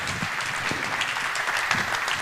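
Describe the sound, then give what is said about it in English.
Applause from a conference audience welcomes a speaker to the stage for a security talk, an even, continuous patter of many hands clapping at a moderate level. “So give a nice round of applause to Alexandre Joulnoy.”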